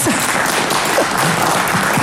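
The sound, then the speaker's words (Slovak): Audience applause at a live talk event in front of a crowd, a dense, even wash of many hands clapping that stays loud and steady throughout. “To si sama... zaslúži veľký potlesk,”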